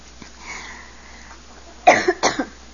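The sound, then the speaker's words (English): Two sharp coughs from a person pausing mid-speech, heard alone in quick succession, each with a brief double burst, following near silence. “When I start coughing.”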